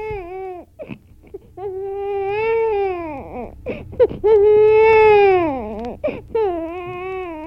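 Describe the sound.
A young child cries loudly in long wailing bursts. The pitch wavers up and down, and short whimpering breaths and brief pauses break up the sobbing.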